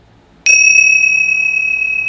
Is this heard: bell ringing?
yes